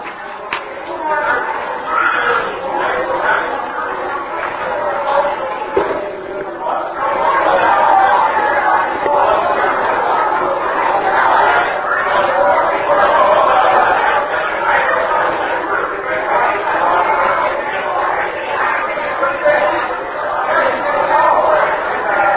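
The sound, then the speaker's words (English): Church audience standing and greeting each other on a morning: many overlapping voices in a lively, continuous chatter that grows a little louder midway and stays busy throughout. “let us stand together and greet each other this morning.”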